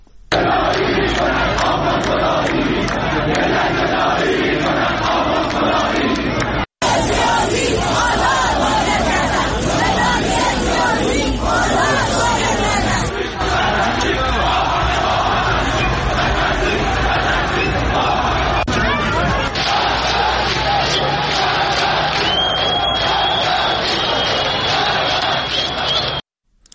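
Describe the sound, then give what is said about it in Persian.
A crowd of several hundred protesters chants radical slogans in unison. Loud and continuous, with crowd noise and shouting throughout. “همینجور که ساعت میره جلوتر، تعداد تجمع کنندگان زیادتر میشه، بوده چند صد نفر میشه و شعارها هم رادیکال تر. بعضی از اونو گوش میکنیم.”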